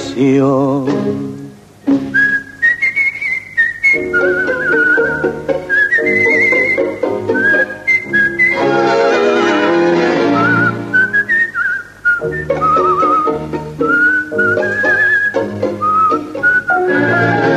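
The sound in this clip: A person whistles a flowing melodic tune, loud and continuous, with sliding notes and short phrase breaks over low musical accompaniment.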